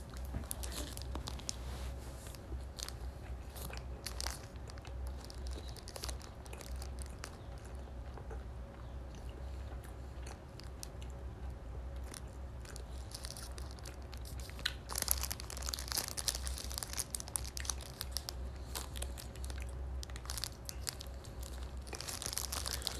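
Eating a warmed, fluffy Yamazaki burger filled with barbecue sauce, cheese and a patty: faint crinkling of wrapping, tearing and soft chewing noises scattered over a low steady hum, with no speech.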